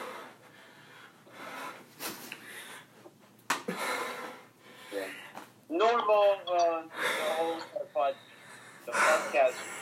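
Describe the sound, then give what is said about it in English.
Heavy panting and gasping breaths follow several rounds of exertion: a run of breathy bursts, then strained voiced breaths near the end. “I'm out of breath.”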